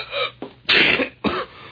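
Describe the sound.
Coughing from a man who is catching a cold: a short run of harsh, bursty coughs in quick succession at moderate loudness, with no talking.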